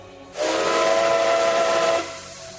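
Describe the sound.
A steam train whistle gives one sustained, steady blast of hissing tone lasting over a second and a half. It starts sharply and cuts off abruptly, with no voices around it.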